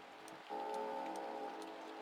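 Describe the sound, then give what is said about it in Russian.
Faint, regular ticking of a clock in a corridor, about five evenly spaced light clicks, with a sustained ringing chime tone entering after the first half-second and continuing underneath. “Потом пробили часы в коридоре.”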